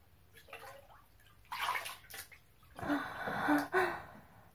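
Bathwater splashing and sloshing in a tub during washing. It comes in a few uneven bursts, and the last stretch is the longest and loudest.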